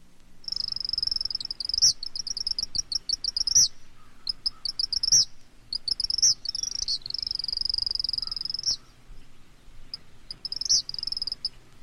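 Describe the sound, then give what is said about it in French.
An eastern kingbird gives high, buzzy, sputtering chatter calls in repeated bursts, some long and some short, separated by short pauses. There are no voices. “le tyran Tritri,”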